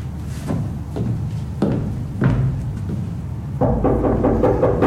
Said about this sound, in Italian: Chi è che bussa a quest'ora?